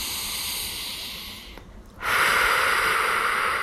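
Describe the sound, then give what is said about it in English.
A deep breath taken during a spoken affirmation and meditation: a long, airy hiss, then a brief near-silent pause, followed by a louder and fuller rush of breath that continues steadily to the end. “Take a deep breath.”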